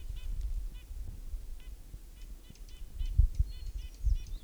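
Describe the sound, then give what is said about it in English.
A Hermit Warbler sings an atypical song of short, high, buzzy notes, repeated in several faint phrases over a low rumbling background. “Hermit Warbler, Atypical Song.”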